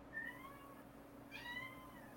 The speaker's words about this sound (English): Whose cat? That's my cat.